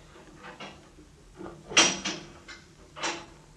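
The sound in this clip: An old prison cell door is opened from outside with a few faint knocks and rattles, one louder sharp clack in the middle, then more scraping clunks.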